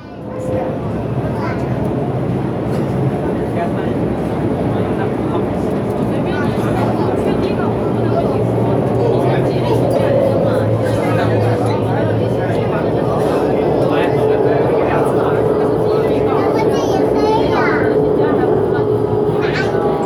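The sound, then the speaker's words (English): A metro train runs between stations with a steady low rumble and a faint whine. A recorded announcement in Chinese and English plays over it throughout. “艾斯特医美提醒您，本次列车开往光达，下一站迎宾路口。 This train is bound for Guangda. The next station is Yingbin Road.”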